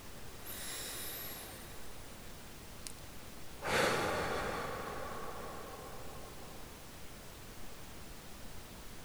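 A deep breath in and out: one strong, breathy exhale begins abruptly and fades away over about a second, above a steady low hiss.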